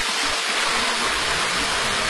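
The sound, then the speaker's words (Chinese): Water flows from a small rockery waterfall and fountain at the entrance gate of a scenic area, producing a continuous soft rushing hiss at a moderate, even level with no voices. “大家能够听到潺潺的流水声，在门口的一个假山小瀑布景观和这种喷泉景观。”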